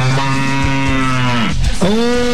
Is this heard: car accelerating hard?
no